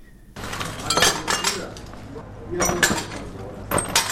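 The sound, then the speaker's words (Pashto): Pieces of broken window glass are gathered up in a room of a house in Khair Khana wrecked by a rocket strike, giving a few bursts of scraping clinks and light chinks. “د کوټې یوې ګوښې ته د ماتو ښیښو ټوټې راټولوي.”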